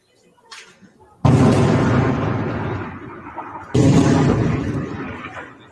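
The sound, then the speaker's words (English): Two loud, booming blasts from rockets fired from Lebanon striking northern Israel. Each hits suddenly and rolls off into a long rumbling decay, with the second arriving about two and a half seconds after the first. “rockets from Lebanon first, which is the first time we've seen rockets actually target the northern colonies of Israel. Here's a look at those rockets.”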